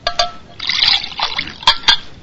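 Water is poured in a short, bright trickling stream, rising and falling in a few splashy bursts and heard alone, without talk.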